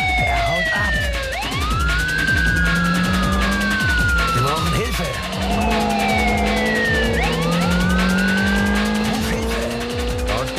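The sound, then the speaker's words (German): Car chase with a yellow Mercedes: police sirens wail up and down over loud, continuous engine roar, with squealing tires throughout. “Zentrale, wir verfolgen einen gelben Mercedes.”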